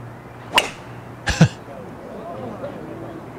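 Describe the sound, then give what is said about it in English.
A golf tee shot during a tournament round, a sharp crack of club on ball followed by a couple more quick smacks, over a low steady murmur. “Here he is hitting his tee shot today. Here he is, right? After he hits his tee shot.”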